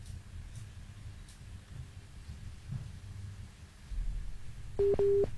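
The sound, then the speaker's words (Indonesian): Busy tone after a dropped phone call: a low, steady hiss of an open line, then near the end two short, steady mid-pitched beeps. “terputus ini sepertinya ya. Oke baik, terputus dari Bang Sulaiman”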